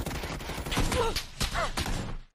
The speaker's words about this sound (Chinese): 又来了，又来了，来了来了，打打打，开枪啊！